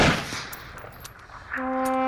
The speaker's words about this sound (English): Ready. Aim. Fire. Ready. Aim. Fire.